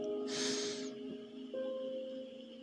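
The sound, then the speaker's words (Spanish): A deep inhale, a brief breathy hiss of about half a second over soft, steady musical tones that keep sounding after the breath. “Respira profundo, inhala,”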